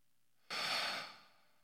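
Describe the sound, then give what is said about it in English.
A single breathy exhale out through the mouth during a deep breathing exercise, a soft, airy whoosh that swells quickly and then tapers off, heard alone without any talking. “I like to breathe in through my nose and then out through my mouth. And sometimes the louder the better when it comes out of your mouth.”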